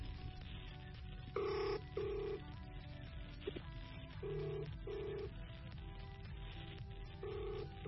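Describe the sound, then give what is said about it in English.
Faint telephone dialing beeps as a number is dialled, a few short tones spaced unevenly under a dense, noisy background. “I'm going to dial Komocho now.”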